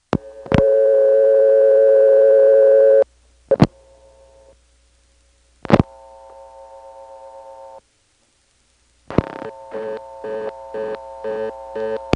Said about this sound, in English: So let's try dialing 39 and then 0.